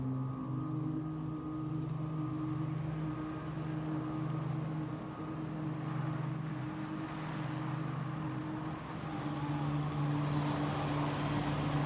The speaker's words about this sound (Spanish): El coche se detiene en la puerta de la casa junto al porche.